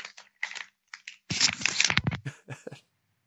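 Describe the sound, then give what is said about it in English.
Crinkling of a crisp bag as Flamin' Hot chips are opened and eaten: several short bursts of crackling rustle, then a longer, denser crunch, then a few more crinkles before it stops. “He's like, I'm about to open up this bag of Flamin' Hots and let it rip.”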